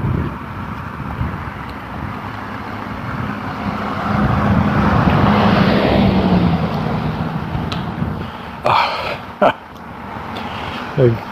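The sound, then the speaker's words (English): A big four-wheel-drive vehicle driving past, its engine and tyre roar swelling slowly to a broad peak midway before fading, with gusty wind buffeting the microphone and a few sharp knocks near the end. “Big four-wheel drive just went by.”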